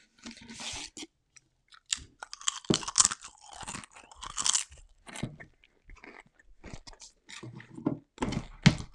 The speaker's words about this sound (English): I need a Pringle.